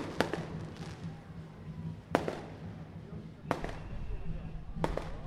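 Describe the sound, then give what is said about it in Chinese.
A fireworks shell bursting at a New Year's celebration, a large burst followed by smaller ones: a few sharp, widely spaced bangs with crackling trails, fairly faint beneath people talking. “这个烟火母子弹，你看它那个大颗的爆炸，又还有小颗的这样爆发出来。”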